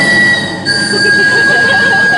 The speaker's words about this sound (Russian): Что это? Поезд.